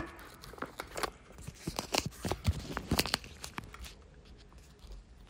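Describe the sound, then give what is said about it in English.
Duct tape rips and crinkles as strips are pulled and pressed on to fix a phone to a light. Many quiet, sharp tearing and crackling bursts come in an uneven run, then taper off. “And duct taping now.”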